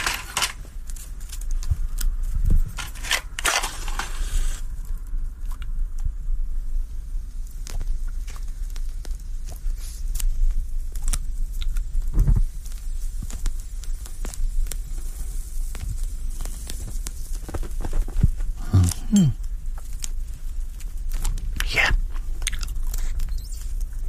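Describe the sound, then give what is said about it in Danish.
A cigar being lit, with steady crackling, sizzling and dry scraping that runs throughout, marked by occasional sharper clicks and crunches. “Jeg tænder lige cigaren, så ved I, hvor I er.”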